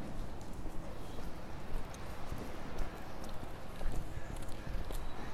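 Footsteps walk along Nikola street heading east toward the water, many steps sounding over a continuous bed of outdoor street noise.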